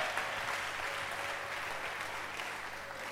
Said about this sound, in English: Put your hands together. Let's welcome Bishop Ni Ajedu Ama, coming all the way from Lagos, Nigeria.